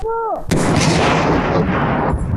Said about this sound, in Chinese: 爆破小组快速实施定点爆破，强行开辟通路。 3、2、1，起爆！